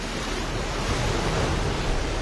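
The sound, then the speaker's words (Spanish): Ocean waves wash in a continuous, steady roar of surf, mixed with rushing wind noise and no voices. “Esas olas, qué paisaje.”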